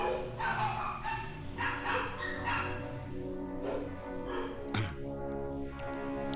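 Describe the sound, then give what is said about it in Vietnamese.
A pack of neighbour's dogs barks in a steady run of overlapping barks and yips, many calls at a moderate, even level throughout with no voices. “Ok, dừng 2 phút để cho đàn chó nhà hàng xóm sủa xong đã.”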